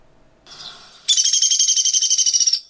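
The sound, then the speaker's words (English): A recording of a bird's whinny call: a faint, rough note, then a high, rapid trill of many even pulses lasting about a second and a half before it cuts off. “And then once in a while, you might hear a different vocalization that's referred to as a whinny. And let's see if we can get that to play.”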